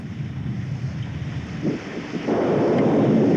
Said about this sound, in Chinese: 哎呀，山水下来了。